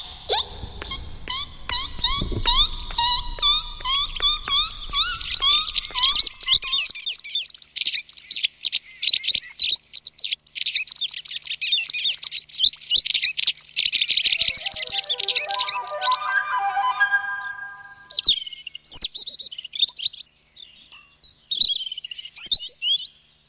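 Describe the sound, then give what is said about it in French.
A child's voice imitates the call of a white wagtail, giving long runs of quick, high chirps and twittering trills in bursts, with no talk alongside. “j'imite la bergeronnette grise”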